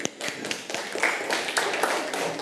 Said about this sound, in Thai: ค่ะปรบมือให้กับตัวแทนค่ะ